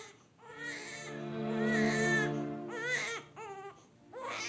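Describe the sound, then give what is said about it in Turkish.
A baby cries loudly and alone: a long, high wail is followed by several shorter, strained sobbing cries with brief breaks between them. “Derdin ne? Niye ağlıyorsun sürekli?”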